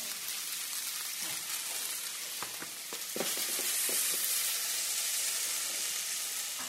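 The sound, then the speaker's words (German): Pre-cooked spelt fries in butter in a high-sided stainless steel frying pan, giving a steady hissing sizzle broken midway by a few sharp taps, after which the sizzle grows slightly louder. “in die hochwandige Edelstahlbratpfanne von Josef Stark. Ja, ein bisschen Butter oder Margarine in den Topf erhitzen. Dann gibt man den bereits vorgekochten Dinkel dazu.”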